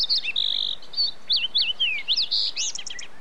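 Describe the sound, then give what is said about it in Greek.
A bird sings a clear, high-pitched song of varied whistles, quick trills and sliding notes, delivered in a steady run of short phrases with no other sounds. “Αυτό το πουλί με μαγεύει. Όταν καταφέρνω και ακούω μόνον αυτό, με πλημμυρίζει απέραντη γαλήνη.”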